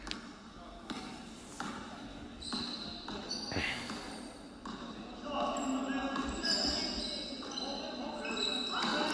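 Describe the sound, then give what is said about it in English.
Repeated bounces of a basketball dribbled up the court during a game, thumping steadily over noisy crowd sound with voices in the background. “Ryan Trotty going to dribble it up the cut.”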